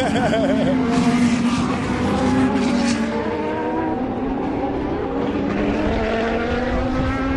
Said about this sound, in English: Because I don't remember hearing any engine noise last year. You can hear it. You can hear them. And then you can hear petrol. That's the sound of petrol.